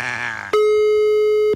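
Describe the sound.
A phone call's dialing tone sounds as a single steady, even electronic tone lasting about a second, just after a voice speaks.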